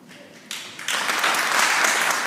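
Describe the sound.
Applause from an audience after Macron announces a referendum on writing environmental protection and the fight against climate change into Article 1 of the French constitution. Scattered clapping begins, then swells quickly into loud, sustained applause.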